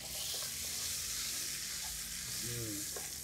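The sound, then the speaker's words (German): About 40 grams of butter melting and sizzling in a frying pan over the browned residue from a seared beef fillet and herbs. It makes a soft, steady hiss throughout. “Wir haben hier Butter, die lassen wir schmelzen. Das sollte schnell gehen.”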